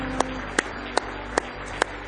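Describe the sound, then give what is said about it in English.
A church audience claps hands in praise during a worship service. Five sharp, evenly spaced claps fall in a steady rhythm over a low background hum. “Give him one more hand clap of praise tonight.”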